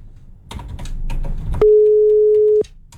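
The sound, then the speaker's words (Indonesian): A telephone signal heard after a call is cut off: one steady, mid-pitched tone of about a second that starts and stops abruptly, preceded by a few scattered light clicks. “Oke, sepertinya terputus pendengar, kami akan coba hubungkan kembali.”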